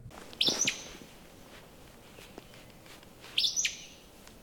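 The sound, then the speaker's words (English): Two sharp, high, explosive calls from an Acadian flycatcher, a bird rare in Canada, ring out about three seconds apart, each quick and emphatic over a faint hiss of background. “I still heard the call of one of the rarest birds in Canada.”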